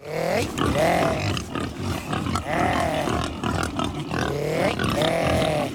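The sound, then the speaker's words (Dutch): Iberian black pigs, dark grey with black legs, on a farm in southern Spain, grunt loudly and constantly, with three drawn-out squealing calls rising above the dense snorting at regular intervals. “Deze dieren hebben weinig te maken met die roze varkentjes die wij in Nederland kennen. Donkergrijs, met zwarte poten. Daarom heet ze ook pata negra.”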